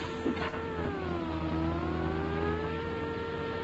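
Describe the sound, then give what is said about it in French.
Racing car engine from an IndyCar racing video game on PC CD, a continuous droning whine whose pitch dips midway and then climbs back up, heard alone without talk. “Voici la deuxième version d'IndyCar de Virgin Interactive sur PC CD qui vous propose de nouveaux circuits”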